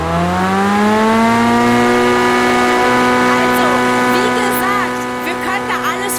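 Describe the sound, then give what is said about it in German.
A leaf blower engine runs in a steady, droning hum with strong harmonics. Its pitch climbs briefly at the start, then holds even and loud, dipping slightly near the end, with faint voices over it in the later part. “Okay, das Laubgebläse ist jetzt auf jeden Fall wieder aus.”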